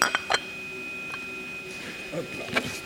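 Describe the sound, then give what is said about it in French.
Porcelain clinks as an emptied coffee cup, its thick grounds still inside, is turned upside down onto its saucer. A few light taps and knocks come with a faint voice underneath. “T'as fini ton café, on va retourner la tasse.”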